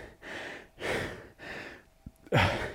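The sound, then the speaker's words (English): Heavy, loud breathing after a hard workout: a few deep, noisy breaths in a steady rhythm, separated by short pauses. “by the heavy breathing that it's a hard workout”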